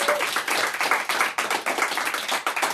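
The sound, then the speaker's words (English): A studio audience claps for itself at the close of an evening with a storyteller. Crisp individual hand claps come thick and fast in an uneven, pulsing patter, loud and without speech. “so thankful to our wonderful studio audience. Good heavens, give yourselves a hand.”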